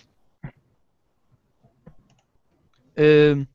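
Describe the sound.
A computer mouse clicks a few times as short, soft, widely spaced ticks in near-silence, followed by a short burst of speech.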